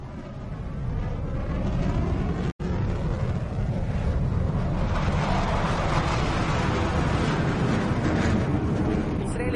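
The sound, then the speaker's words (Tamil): Airplanes fly overhead in a heavy, continuous roar that stays loud and steady, with one very brief break early on. “அவை எங்கள் விமானங்கள் அல்ல, அந்த திசையில் இருந்து அல்ல.”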